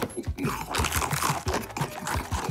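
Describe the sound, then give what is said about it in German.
A crunchy cookie is bitten and chewed in a quick, steady run of many crisp crunches, fairly quiet and with no talking. “wenn man etwas so lieb hat wie dich, mein süßer Keks. Ich hab dich so lieb. Ich könnte dich aufessen, was ich jetzt auch mache.”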